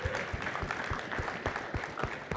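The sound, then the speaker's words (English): An audience at a talk with a question-and-answer session applauds. Many hands clap in a steady, dense patter that stays faint and even throughout. “Y'all give another round of applause for that, man. That was fantastic.”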